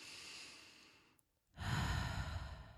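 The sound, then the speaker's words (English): A slow, deep breath during a relaxation exercise: a long, soft inhale, a brief pause, then a fuller, louder breathy exhale, heard alone. “So you've taken your deep breath. And again.”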